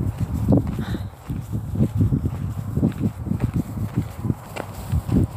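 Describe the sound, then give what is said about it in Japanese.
Footsteps scuff and crunch along an unpaved path of sand and small stones across flat, dry ground near the ruins of Ephesus, a steady walking rhythm of many soft steps with no talking. “ただちょっと今歩いてる道はですね舗装されてなくて砂と、まあ、小さな石の道なので”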